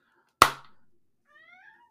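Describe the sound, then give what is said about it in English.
Faint cat meow: a short rising-then-falling cry that comes after a single sharp, loud bang-like hit, with near silence between the two. “can you hear that meowing, dude? Yeah, I heard the cat.”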